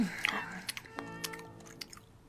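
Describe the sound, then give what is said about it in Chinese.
A wolf in a children's story crunches carrots, with a series of crisp, irregular bites and chewing crunches, fairly quiet and spaced through the moment. “他一边吃一边想：“ 这会儿是啊，要是有只鸡该多好啊！”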